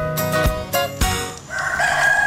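A rooster crows loudly, a strained, harmonic call broken into a few segments that ends on a longer held note.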